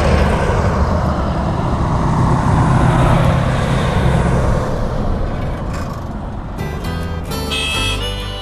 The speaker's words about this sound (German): Und ab und an fährt ein Auto vorbei. Oder auch mal zwei.